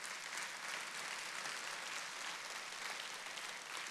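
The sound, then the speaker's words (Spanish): Audience applause at a religious service: a faint, steady, even wash of clapping that continues without break for the whole clip. “Si quiere aplaudir, hazlo.”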